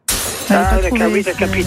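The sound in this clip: Glass shatters as a sound effect marking a wrong quiz answer: one sharp, bright crash bursts in at the start, then voices carry on over the fading tail.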